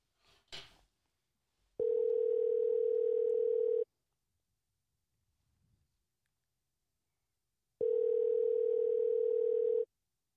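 Telephone tones on the line after a call was hung up: two long, steady single-pitch beeps of about two seconds each, separated by a long silence, after a brief rustle at the start.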